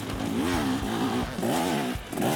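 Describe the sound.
A dirt bike's engine revs hard on a 4-kilometre off-road loop course, its pitch climbing and dipping continuously as the rider works the throttle, loud and unbroken throughout.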